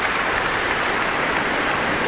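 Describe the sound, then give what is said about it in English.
An audience applauds the soloists and chorus after a choral performance with dense, even clapping that stays constant and fairly loud with no voices over it. “certainly for that audience too, who were applauding soprano Lina Lutens, Roberta Invernizzi as well, Gloria Banditelli the contralto”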